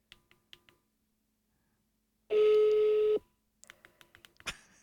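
A telephone tone while calling the winner of a PolyBrute synthesizer contest: a single steady, loud, mid-pitched beep under a second long, with a few faint clicks before it and light tapping after.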